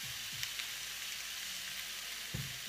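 Food frying in a pan, a soft, steady sizzling hiss that runs throughout, broken by a couple of faint low knocks.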